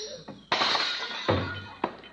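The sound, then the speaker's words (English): Dishes smash as a tablecloth is yanked out from under them: a few sharp, bright crashes with rattling, clattering debris trailing after each impact. “Oh, no, don't pull that tablecloth. You'll smash all those dishes.”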